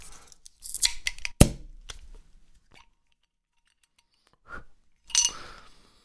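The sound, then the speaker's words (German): A bottle of non-alcoholic beer opened by its ceramic swing-top stopper: a quick cluster of small clicks and clinks with one sharp, pop-like snap, then a quiet pause before another brief burst of sound. “ich muss das Flaschel aufmachen. Also es wird ein bisschen ploppen, hat einen äh, Keramikkorkverschluss”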